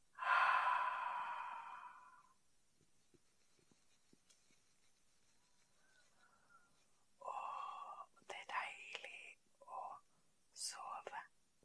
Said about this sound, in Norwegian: Inn gjennom nesa. Og ut gjennom munnen.